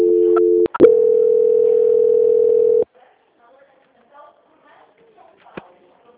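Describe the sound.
A telephone line tone sounds while a call is being transferred. The steady tone is briefly broken near the start, then resumes and holds for about two seconds before cutting off into near silence with a few faint small noises.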